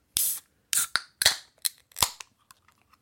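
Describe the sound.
A can of lime-and-salt flavored non-alcoholic beer is cracked open: a sharp crack with a short fizzy burst, followed by several more snapping clicks that grow fainter and sparser, all quiet and without talk.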